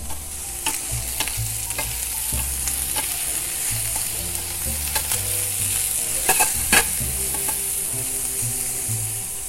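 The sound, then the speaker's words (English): Mushrooms sizzle steadily in a hot pan while being stirred, a continuous bright frying hiss broken by a few sharper scraping and clattering stir strokes, with no talking. “All right, so again, every now and then, give it a nice little stir.”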